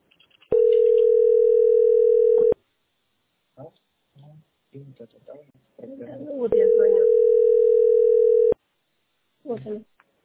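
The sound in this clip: A telephone dial tone sounds while a call is being placed: two steady, unbroken mid-pitched tones of about two seconds each, with people talking between them and after.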